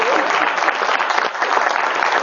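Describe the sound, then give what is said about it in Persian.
Audience applause, dense and steady clapping from many hands that stays loud and even from start to finish without a break. “یه دست بارش بزنید، یه دست بزنید که ده تومن بیارزه بابا.”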